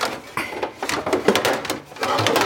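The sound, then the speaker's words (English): Metal sheet pans clank and scrape as they are pulled from a crowded kitchen drawer: a run of irregular knocks and sliding rattles at moderate loudness, with no talking over them. “Okay, so I'm gonna get my sheet pan. I have a lot of sheet pans in this drawer.”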